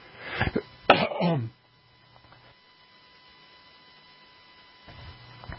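A man coughs: a short burst, then a longer, harsher cough. Afterwards only a faint, steady low mains hum remains.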